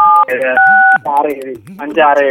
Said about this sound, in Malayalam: ഒരു ഒന്ന് നമ്പർ ഒന്ന് പ്രസ് ചെയ്യൂ. സ്റ്റാർ 567